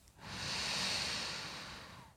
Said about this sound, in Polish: Wciągnijmy wszyscy powietrze przez nos i wypuśćmy je ustami.